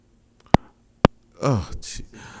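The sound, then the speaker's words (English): A telephone call drops on a radio call-in line with two sharp, isolated clicks about half a second apart, followed by a voice that starts talking. “we just lost that call. Is this phone here?”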